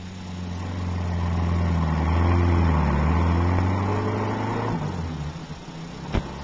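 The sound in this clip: A car engine hums steadily as the car pulls away, swelling and then easing off, with a brief sharp knock near the end.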